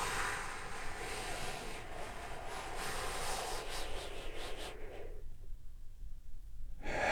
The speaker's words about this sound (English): take one more deep healing breath with me right now.